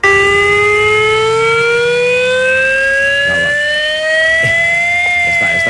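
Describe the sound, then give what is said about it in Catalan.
A civil protection confinement siren sounds for a chemical accident drill: a loud, steady electronic wail with rich harmonics that holds throughout and slowly climbs in pitch. “És el so de la sirena de confinament que sonarà en 40 punts diferents de la zona afectada en un nou simulacre d'accident de risc químic.”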